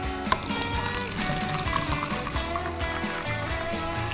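Hot water pours and splashes continuously in a steady, dense liquid rush, with a few small sharp drips and clinks over the flow and no voices.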